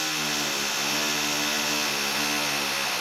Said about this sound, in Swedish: Ja, och medans de borrar så kör vi lite pausmusik.